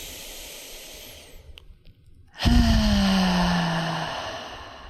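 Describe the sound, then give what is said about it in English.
Deep breathing during a slow breathing exercise ends in a long, loud breath out through the mouth, a breathy hiss that swells suddenly and fades over about two seconds, after quieter breath sounds. “Starting now, we're going to do 3 breaths. Letting go on the out breath.”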